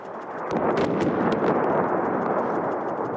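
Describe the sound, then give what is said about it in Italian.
Night bombing on the southern outskirts of Beirut: a loud, sustained roar of blasts with a few sharp cracks near the start, the heavy rumble continuing without a break. “Il suono di un bombardamento tardi ieri sera sulla periferia meridionale di Beirut, roccaforte di Hezbollah.”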